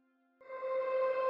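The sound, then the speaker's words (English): A synthesizer pad opens on a faint low hum, then swells into a rich, sustained chord of layered harmonics with a soft airy hiss underneath, holding steady and fairly loud to the end, with no voices. “Our second synthesizer pad is called Airways, which sounds...”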